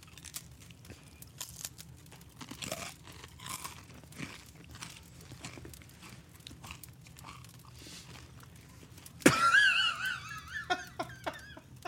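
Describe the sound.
Crunchy crispbread being bitten and chewed, with many short, dry crackling crunches in an irregular rhythm and a louder burst of crunching near the end.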